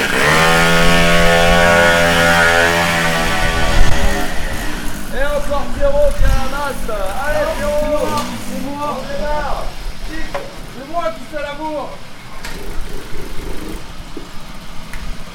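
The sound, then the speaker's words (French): Engine of a Pony Ninja moped, 51 cc with a 19 mm carburettor, giving a loud, buzzing, harmonic-rich drone whose pitch wavers and swoops up and down as it revs. “Là, t'entends un Pony Ninja et un Carbu 19 sur 51.”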